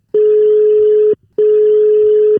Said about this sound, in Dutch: We gaan haar eens bellen.